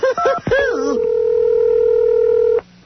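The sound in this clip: A telephone dial tone: a steady, loud, low hum holding unchanged for well over a second, then stopping abruptly. A brief voice comes just before it.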